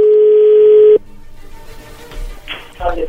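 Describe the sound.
A telephone line tone sounding while a call is being dialed: a loud, steady, even tone holds for about a second and cuts off abruptly, followed by faint clicks and muffled line noise.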